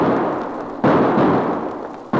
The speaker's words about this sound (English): The shots came right from those aspens.